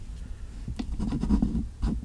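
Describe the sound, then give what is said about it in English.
Pen scratching over paper as notes are written by hand: a run of short, soft, scratchy strokes with brief gaps between them. “I'm going to write in my notes right now.”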